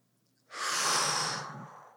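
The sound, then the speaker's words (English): One deep inhalation taken during a guided breathing exercise: a smooth, airy rush of breath lasting just over a second, swelling quickly and then tapering off, heard alone. “Breathe in.”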